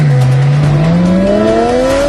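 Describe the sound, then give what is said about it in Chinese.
A car engine roars under hard acceleration, a loud, continuous tone whose pitch climbs steadily, heard alone. “完美的车，应该发出什么样动听的声音？急速马力的声浪轰鸣，”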